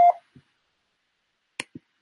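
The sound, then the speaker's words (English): A voicemail beep tone: a single brief, steady mid-pitched electronic beep at the very start, followed by near silence and a few faint clicks. “Is unavailable to take your call. Please leave a message after the tone.”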